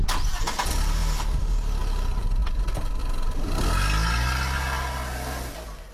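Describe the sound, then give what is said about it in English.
A car engine cranks and roars into life, then revs hard with rising pitch, loud and dense throughout before gradually easing off toward the end. “are you someone who's into motorsports? Does the roar of an engine bring about an adrenaline rush for you?”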